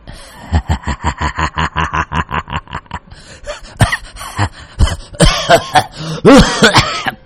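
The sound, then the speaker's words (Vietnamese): An old man laughs loudly in a rapid string of even, voiced bursts, then breaks into a rough coughing fit of several harsh, irregular coughs that grow louder toward the end. “Lão Ninh Thọt cười lên sằng sặc, Vì vậy cơn ho cũng phát tác”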